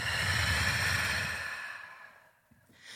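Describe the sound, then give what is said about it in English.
A long exhale out through the mouth after a held breath in a guided breathing exercise: a steady, airy rush that starts loud and fades away over about two seconds, with no talk over it. “exhale out your mouth”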